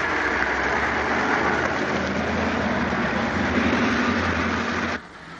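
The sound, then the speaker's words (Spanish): Car engines run with a steady low rumble as a group of men drive off in a car parked in front of an ambulance in a 1972 gangster film scene; the drone holds evenly, then drops away sharply near the end. “Sony y sus hombres montan en un coche detenido delante de la ambulancia.”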